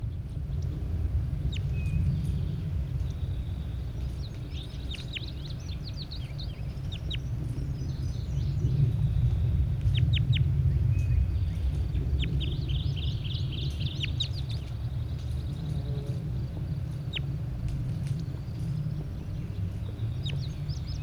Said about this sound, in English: Start recording bird 81. Definitely a large bird.